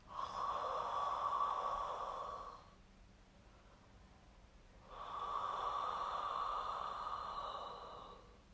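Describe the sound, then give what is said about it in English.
Two long, throaty breaths from a breathing practice, each lasting almost three seconds with a rasping, hoarse texture and a quiet gap between them, performed alone without talk. “there's one breath particularly that I quite like that I'd like to share with you from the practice, which is called the Luna breath. And so the Luna breath is essentially, if you imagine a really throaty breath,”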